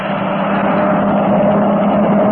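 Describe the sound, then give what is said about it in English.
A car's engine drones steadily as it comes fast along a road toward passing by, a continuous loud mid-pitched rumble with no breaks and no voices. “there's a car coming along the road. When it goes by, we might as well start after those trucks again.”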